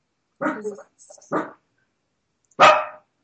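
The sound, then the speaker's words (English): A pet dog barks a few times in sharp, separate bursts with short pauses between them, the final bark the loudest. “That is my dog barking.”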